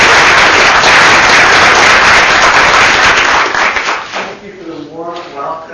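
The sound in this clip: Audience applause welcoming a speaker to a lecture: loud, dense clapping holds steady, then thins and fades after about four seconds as a voice begins.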